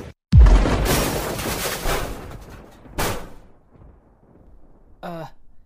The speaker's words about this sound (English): Oh man, is that a missile?